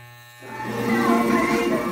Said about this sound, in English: The buzzing sound you hear in the background is from the clippers shaving her head.